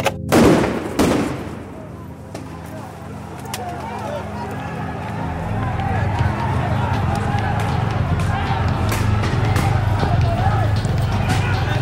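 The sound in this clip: Riot noise from a street protest in Athens with Molotov cocktails, tear gas and stun grenades: a dense, roaring crowd wash punctuated by sharp bangs, loud and continuous throughout.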